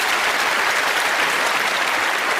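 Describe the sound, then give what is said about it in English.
An audience bursts into applause at a show, a dense, even wash of clapping that holds steady for the whole stretch with no voices over it. “And we want to welcome to the show, big round of applause,”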